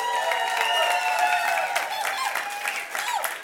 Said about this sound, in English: just say a big welcome and big clap of hands to everybody that is visiting us today